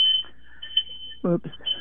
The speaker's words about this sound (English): that's my smoke alarm. Oh, no. It's okay. I'm just burning hash browns.